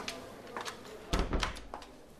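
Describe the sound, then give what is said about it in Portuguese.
A door is closed with a single soft, low thud partway through, surrounded by quiet shuffling and faint room noise. “Juro que não dizemos a ninguém. Deixa-me fechar a porta.”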